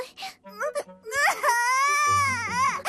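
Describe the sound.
A young child crying: several short sobbing bursts give way to a long, loud, high wail that wavers in pitch and breaks into further cries at the end.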